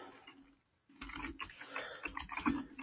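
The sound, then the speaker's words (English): Typing on a computer keyboard: a faint, quick patter of key clicks, pausing briefly before resuming in denser bursts. “So, I'm going to type in what I'm going to call it.”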